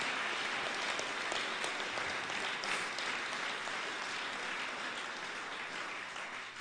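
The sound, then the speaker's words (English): Congregation applause fills a church service, a dense, steady roar of many hands clapping together that holds throughout and eases off slightly near the end. “go ahead and give the Lord another mighty applause.”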